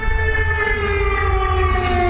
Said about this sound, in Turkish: Lublin bölgesinde sirenler çaldı.